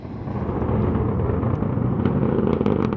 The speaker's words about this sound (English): on Monday, our NPR colleague Julia Simon was in Southern California watching this SpaceX Falcon 9 rocket launch.